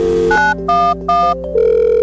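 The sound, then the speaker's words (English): A telephone is dialed in a hurry during an emergency. Three short tone beeps ring out over a steady underlying dial tone, then a sustained tone follows. “Frantic, you reach for the phone and dial.”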